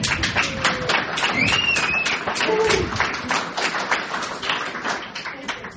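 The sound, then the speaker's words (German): Applause from an audience gathered at an event, a steady run of many sharp claps that swells and then gradually thins, with some voices beneath. “Wichtig ist noch, genau, gebt euch einen Applaus.”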